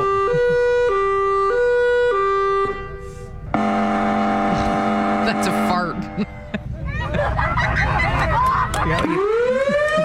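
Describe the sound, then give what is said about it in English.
Sirens blare at a siren enthusiasts' gathering in Wisconsin: a loud stepped two-tone electronic siren, then a heavy steady mechanical drone and overlapping rising wails, all sustained and very loud. “Yep. That's a siren.”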